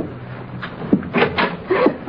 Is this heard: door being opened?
yes